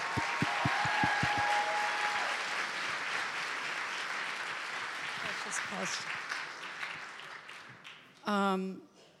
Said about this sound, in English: So put your hands together and welcome Maria Durso.